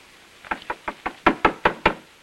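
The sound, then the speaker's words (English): Knuckles rap on a bedroom door in eight sharp knocks: four lighter ones, then four harder ones in a steady rhythm, with no voices. “Andrews knocks on a bedroom door.”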